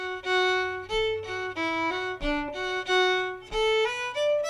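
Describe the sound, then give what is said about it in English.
Solo fiddle plays the tune Green Mountain plainly, without ornamentation. It is a clear run of separate bowed notes at a steady pace, each note sustained before the next, at moderate volume. “So if I were to play Green Mountain without any ornamentation, it would sound something like this.”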